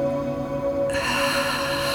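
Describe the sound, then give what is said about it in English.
A deep breath is drawn in through the nose during a guided breathing exercise. The soft, steady breathy hiss begins partway through and continues over a sustained humming tone. “let's take a deep breath now. In through the nose, hold it there.”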